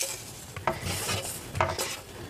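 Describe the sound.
Soft cooked cauliflower poured from a pan into a bowl: quiet scraping and shuffling, with two sharper clinks of utensil against cookware.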